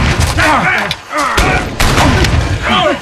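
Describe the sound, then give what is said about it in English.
Gunfire in a battle scene: repeated loud, sharp bursts and booms in quick succession, mixed with shouting voices throughout. “Down! Return fire!”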